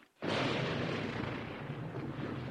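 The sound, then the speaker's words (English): An explosion tears into the ground on a battlefield where young soldiers face an advancing Union regiment: one sudden heavy blast that swells into a dense, sustained rumbling roar and slowly eases. “Explosions tear into the ground. Dirt and smoke blast upward amid the young soldiers.”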